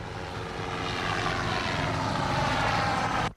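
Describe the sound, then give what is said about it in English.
A helicopter flies past overhead with a loud, steady engine and rotor drone that swells slightly for about three seconds, then cuts off abruptly. “Above, the chopper whizzes by.”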